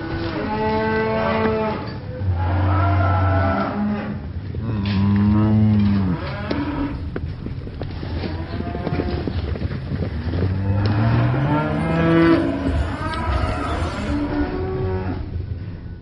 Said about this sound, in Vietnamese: cũng không biết bao lâu sau đàn bò kêu giống thảm thiết ấy mới xông hết qua cái rãnh.